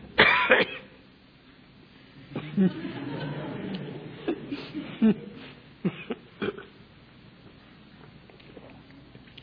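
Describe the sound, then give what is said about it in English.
A sharp cough bursts out at the start, followed by breathy, throaty vocal sounds and several more short, rough bursts. “I immediately cough.”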